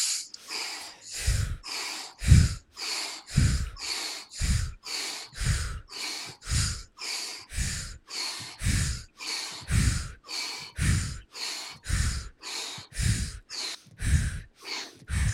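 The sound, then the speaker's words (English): Deep intentional breaths in a breathing exercise, many forceful inhales and exhales repeated in a steady, even rhythm, each with a sharp, snort-like rush of air, loud and with no talking. “We're going to do 30 intentional breaths right now. Ready, begin.”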